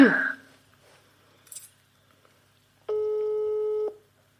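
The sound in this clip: A telephone ringing tone sounds on an outgoing call: one steady, mid-pitched tone with harmonics lasting about a second. Before it come a brief voice fragment and a soft click.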